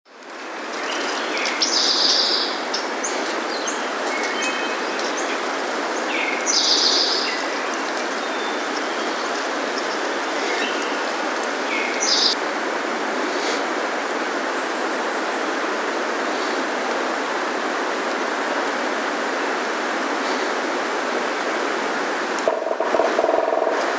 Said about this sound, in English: Cape May warbler.